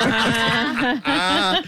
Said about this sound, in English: Nothing like a screaming goat. I have the exact... I have the exact same goat.